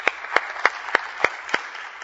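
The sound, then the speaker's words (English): A church audience applauding with a steady rhythm of sharp claps, about three per second, each standing out crisply above a faint background hiss. “I think a round of applause is in order.”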